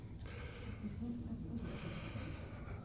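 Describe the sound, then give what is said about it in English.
A preacher takes a deep breath to calm down before prayer: a long, airy inhale followed by a slow, steady exhale, soft and breathy. “I'm going to take a deep breath because I'm in a rush mode.”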